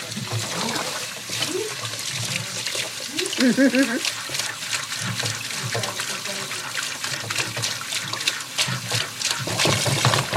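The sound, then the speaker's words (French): Water splashing and trickling in irregular bursts, made on purpose as a sound example, with a brief vocal sound partway through. “Par exemple, de l'eau, hein. Un son que t'as. Par exemple, de l'eau.”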